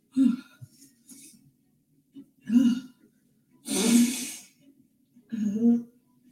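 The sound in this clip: A person with a congested throat clears it in four harsh, rasping bursts with short pauses between them. The third burst is the longest.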